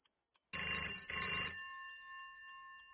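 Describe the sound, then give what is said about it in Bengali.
A landline telephone extension in a house rings harshly in two loud bursts of bell ringing, then its ringing tone lingers and fades, with no voices. “ঘুম ভাঙল ফোনের কর্কশ শব্দে। বাড়ির ল্যান্ডলাইনের একটা extension সম্পদের ঘরে রয়েছে।”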